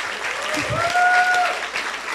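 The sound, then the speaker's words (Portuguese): Congregation applauding during a Sunday morning church service, dense steady clapping that fills the short moment without a break. “Você dá uma salva de palmas ao Senhor.”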